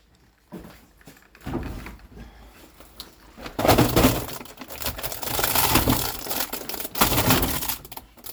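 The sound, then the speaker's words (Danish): Contents of a 20-kilo load are poured, without machinery, into a fermentation box for spontaneous fermentation. A few scattered knocks lead into a loud, continuous rattling and crunching pour. “Og nu bliver de simpelthen hældt direkte ned i vores fermenteringskasse.”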